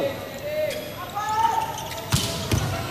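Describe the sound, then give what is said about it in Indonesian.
Volleyball looping jump serve during a match: a couple of sharp impact thumps land near the end, under continuous commentator talk. “Kali ini Isan Muhammad akan melakukan looping jump serve.”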